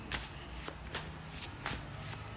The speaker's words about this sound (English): Okay, let's see what we got. And while I'm pulling these cards